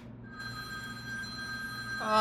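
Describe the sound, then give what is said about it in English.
A telephone rings in one unbroken, steady, bright tone that holds its pitch and swells slightly louder at the end. “sir, your phone.”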